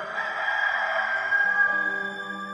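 A rooster crows in a long, sustained, high-pitched call with music playing softly beneath it.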